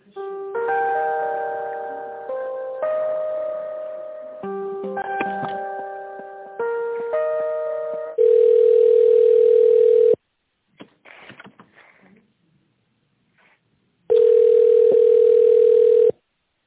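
Telephone line tones play while a call is transferred: a stepping run of electronic chime-like tones, then two long steady beeps separated by near silence with a few faint clicks.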